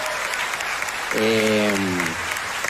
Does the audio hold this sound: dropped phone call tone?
no